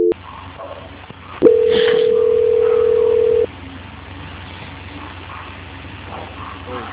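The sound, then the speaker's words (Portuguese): A telephone call being transferred: a single steady mid-pitched tone holds for about two seconds on a narrow, hissy phone line, with only faint line noise before and after. “Só não desliga que eu vou estar transferindo a ligação, tá bom?”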